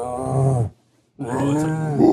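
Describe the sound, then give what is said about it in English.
A person imitates a small dog's deep bark: two drawn-out, growling vocal bursts separated by a brief silence. “He barks. He has a deep bark. Finbar is a small dog, so he has a lot like a... But he doesn't have a different, to bark all the time. This is what your dog barks like.”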